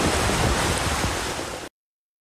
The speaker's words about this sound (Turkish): Deyim yerinde ise Sait Abat şelalesi coştu, su seviyesi rekor düzeye ulaştı.